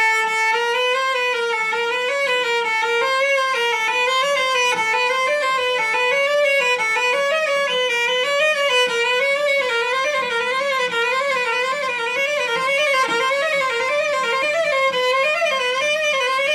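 A string instrument plays an exercise of single sustained notes climbing up and back down in small half-step and whole-step spacings, each tone held with a slight vibrato, steady and fairly loud with no voices.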